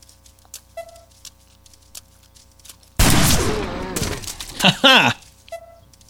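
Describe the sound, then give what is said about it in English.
Sniper rifle fire in a video game: after a quiet stretch, a loud gunshot burst erupts with a rumbling tail, followed by a few more sharp, heavy bursts. “Now, I wonder if I could take this guy out with my sniper.”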